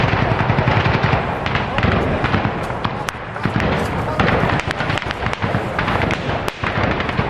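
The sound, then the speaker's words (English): A soldier firing a rocket-propelled grenade during fighting alongside armored vehicles, with sharp, loud bangs standing out from a dense, continuous roar of noise. “This piece of video shows armored vehicles and then a soldier firing a rocket-propelled grenade.”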